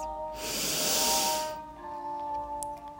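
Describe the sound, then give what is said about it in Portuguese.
A long inhale through the nose during a guided meditation, filling the lungs: one soft, airy hiss swells for about a second, then fades, with faint steady tones held underneath. “Agora a gente vai inspirar de novo pelas narinas, encher os pulmões”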